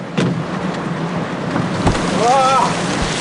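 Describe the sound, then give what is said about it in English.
Rain falling on a car: a steady, dense hiss of drops with scattered low thumps, fairly loud and continuous throughout. “In the car, Elle watches Connor in the rain trying to fix a windshield wiper.”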